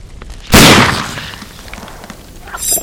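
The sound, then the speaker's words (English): A gunshot rings out in an audio drama shootout: one sudden, loud, booming blast with a long fading tail, then a smaller burst near the end, with no voices. “You've got to shoot them in the head”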